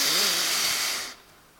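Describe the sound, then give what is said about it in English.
One forceful, noisy breath taken as part of a breathing technique, a rough, hissing rush lasting about a second that stops abruptly and gives way to near silence as the breath is held. “you hold your breath, you take a deep breath, and here she's on it, she says, well, let me show you my breathing technique.”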